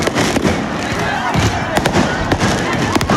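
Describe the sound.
Firework mortar shots crackle and bang during a street riot with burning bins: many sharp, irregular explosions over a dense, noisy background, with voices mixed in.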